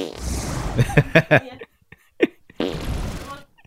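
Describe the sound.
Farting noises, tied to a joke about a fart deck during talk about a fantasy tabletop game, come as a quick burst of several short blasts followed by one more brief puff, with voices heard around them.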